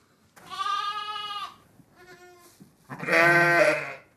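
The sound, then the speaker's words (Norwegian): Sheep and lambs bleat at lambing time on a sheep farm in Geilo. Three bleats stand alone: a sustained one, a shorter, fainter one, then a loud, harsher final call. “25 eh, søyer, og nå er det kommet 24 eh, lam så langt.”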